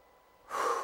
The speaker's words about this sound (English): I want us all just to relax, just take a deep breath.